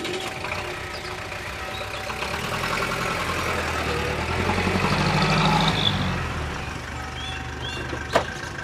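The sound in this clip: A taxi's engine idling: a steady, low rumbling drone that swells slightly in the middle and then settles. A single short, sharp knock sounds near the end.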